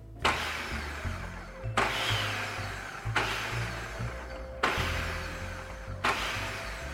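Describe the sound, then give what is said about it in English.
A food processor pulses cranberry salsa in five short, loud bursts, each a coarse whirring blade roar that stops abruptly before the next. “I'm gonna let the machine do the work. I don't want them to get chopped into little bits, so I'm just gonna quickly pulse maybe like 5 times, and then they'll be completely mixed in.”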